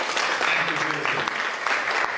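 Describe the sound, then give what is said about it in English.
Audience applause at a live presentation, breaking out when the crowd is asked to clap for a combat veteran. The clapping is dense, steady and loud throughout, with some voices mixed in. “Can we clap for this?”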